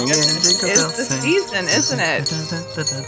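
A Christmas pop song with jingling bells plays at full level. A bright, continuous high shimmer rides over sung vocals and dense band backing.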